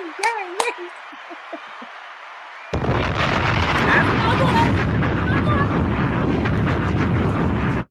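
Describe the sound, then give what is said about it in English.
Fireworks go off: brief whistling tones open, then after a short lull a dense, continuous barrage of loud crackling bursts and booms runs for about five seconds. “That sounds like fireworks.”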